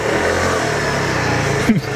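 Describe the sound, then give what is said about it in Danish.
A white Vespa scooter engine revs, ridden onto the stage during an opera production: a steady low, buzzing drone with a short, sharp burst of revving near the end. “Man kan ikke blive andet end forelsket i den her hvide Vespa-scooter”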